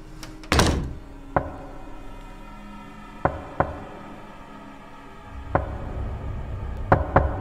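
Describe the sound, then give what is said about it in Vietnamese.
Knocking on a door at night: several sharp, hollow knocks spaced irregularly. The first is the loudest, and a quick cluster of raps comes near the end. “Có tiếng gõ cửa vang lên trong đêm lạnh toát.”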